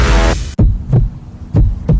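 A heartbeat sound effect in an advertisement for a pacemaker and cardiac arrhythmia centre. A loud low hum cuts off abruptly, followed by two deep lub-dub pairs of thumps at a slow, steady pace.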